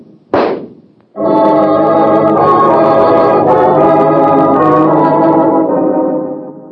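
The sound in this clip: A single sharp gunshot from a handgun cracks out alone, followed after a short gap by a loud, sustained dramatic music chord that holds steady for several seconds before fading.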